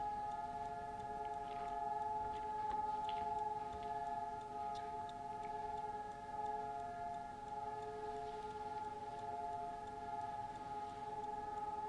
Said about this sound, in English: And that's the siren in memory of the 6 million.